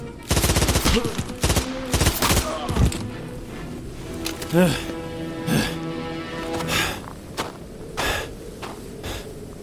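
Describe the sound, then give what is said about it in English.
Assault rifle fire in a video game comes in rapid bursts of sharp cracks, dense early on and then scattered, with voices and gasps between the shots. “Assault rifle bullets nearly tore them in half.”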